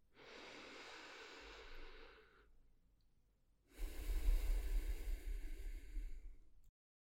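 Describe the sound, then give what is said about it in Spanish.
Slow deep breathing during a guided meditation: one long, soft inhale, then a pause, then a longer and louder exhale that trails off into silence. “Respira conmigo.”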